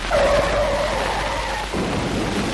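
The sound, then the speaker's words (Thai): A car skids with a long, whining tire squeal over loud rumbling noise, and then the sound shifts abruptly to a rougher, lower rumble. “กระเพราหมูขับรถพุ่งชนที่รถเคนเพื่อขัดขวางให้เคนยิงเรา”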